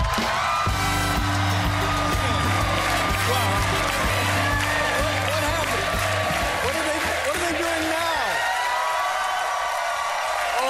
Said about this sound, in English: Stephen, control your people. This is the most enthusiastic audience I have been near since the night I announced I was quitting.